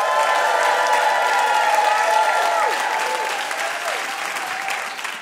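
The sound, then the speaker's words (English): A crowd in Brooklyn applauds and cheers as a stand-up comic is welcomed on as a guest. Loud, sustained clapping carries whoops and cheers on top, then slowly eases off toward the end. “She's a stand-up comic whose special Single Black Female is available now. Give it up for Marina Franklin.”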